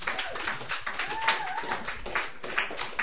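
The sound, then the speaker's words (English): Audience clapping at a Sunday night open mic as an older singer is welcomed to the stage: brisk, dense applause that runs the whole length, with a voice rising briefly in the middle. “I am just delighted to welcome you back. Please put your hands together.”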